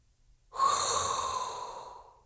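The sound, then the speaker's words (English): A single long, hissing inhalation is drawn in sharply after a short silence. It starts loud and breathy, then slowly tapers off over about one and a half seconds, with no talk. “So there's only thing one we need to do. And that is inhale a hot breath”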